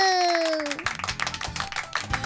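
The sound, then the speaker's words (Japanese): Clapping, introduced by a falling electronic sweep tone that gives way to brisk, steady claps from several hands. “はい、拍手。”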